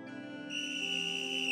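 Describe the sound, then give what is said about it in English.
A whistle blown to start a race: after a faint lead-in, one shrill, steady tone holds for about a second, loud and alone. “And with a whistle blown, we are officially off and leaving the starting line.”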